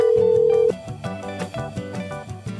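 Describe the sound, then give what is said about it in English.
Telephone tone while returning missed calls: a steady, single-pitched tone holds for under a second, then gives way to a short repeating electronic melody of bright notes. “Before we get down to business, I'm just going to deal with some missed calls.”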